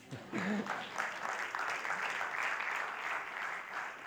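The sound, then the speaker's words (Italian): Audience applause at a jazz lecture, a steady burst of clapping lasting about four seconds, with a brief voice near the start. “Ora potete applaudire.”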